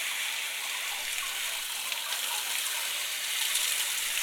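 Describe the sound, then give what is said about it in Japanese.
Warm water runs steadily while hair is wetted, a continuous bright gushing and splashing of even loudness throughout, with no talking. “まずは髪の毛を濡らしていきますね。”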